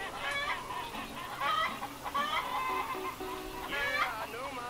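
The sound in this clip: Rhode Island Red chickens cluck in a busy, continuous chorus of short, uneven calls that shift in pitch and overlap with no pause.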